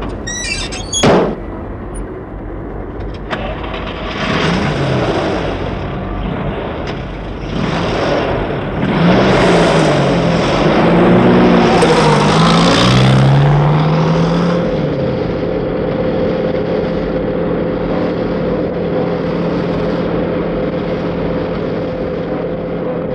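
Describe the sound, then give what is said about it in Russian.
A car pulls up with a swelling rush of engine and tire noise, then settles into a steady, low engine hum that runs on to the end, preceded by a single sharp click near the start. “Вось і машина, пан. Сядайте, калі ласка.”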